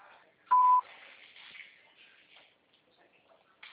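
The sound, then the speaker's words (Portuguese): A voicemail beep sounds before recording a message: one short, steady, mid-pitched electronic tone, followed by faint low background noise. “Sua chamada está sendo encaminhada para a caixa de mensagens e para a sujeita cobrança após o sinal. Após o sinal, grave sua mensagem.”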